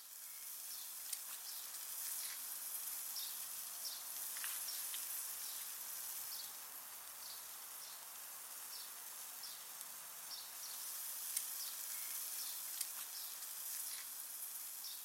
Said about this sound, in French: C'était deux chipolatas qui étaient préparés sur un barbecue